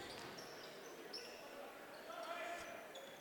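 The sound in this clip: A basketball bounces during a game, dribbled under a steady wash of crowd noise, with voices audible in the background.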